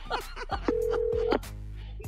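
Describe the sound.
Telephone dialing during a prank phone call: one steady electronic tone lasts well under a second, set among short bursts of voice-like sound.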